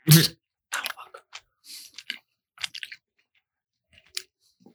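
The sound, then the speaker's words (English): Someone chews a white, yellow-spotted popcorn-flavoured jelly bean, making many irregular crunchy, sticky bites and mouth clicks in short bursts separated by pauses, with no talking. “So this is a white jelly bean with like yellow spots. It looks like one of those popcorn jelly beans.”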